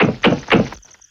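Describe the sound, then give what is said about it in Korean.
Knocking on a cabin door at night: three dull, heavy thumps spaced unevenly, the last followed by a quiet fade with no voices. “그날 밤 자신의 오두막에서 자고 있던 연주자는 노크 소리를 들었어요.”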